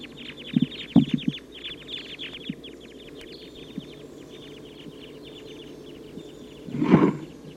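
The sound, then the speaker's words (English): A big flock of about 14 type 2 crossbills calls as it takes off and heads south. Many short, sharp chip notes come in quick, overlapping bursts, over a low background rumble. “They're recording that big flock of about 14 type 2 crossbills took off to the south.”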